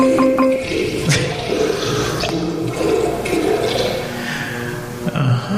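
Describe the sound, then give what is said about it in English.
Water gushes from restroom fixtures smashed with a baseball bat in a women's restroom, a loud, steady rushing and splashing that runs the whole clip with no talk. “I came in the women's restroom here with a baseball bat and I broke a lot of the fixtures. And there's water everywhere.”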